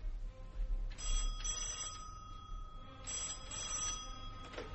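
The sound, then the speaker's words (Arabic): A telephone bell rings in two separate bursts of bright, metallic trilling, with a steady low hum underneath and no voices. “الو، تليفون يا استاذ.”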